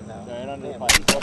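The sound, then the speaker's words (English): Gunshots from a .22 rifle aimed at a nutria on a bank: a few sharp, loud cracks in quick succession after a stretch of talking. “Got it. Nice shot.”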